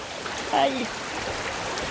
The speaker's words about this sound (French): Voilà, maintenant on est à la rivière.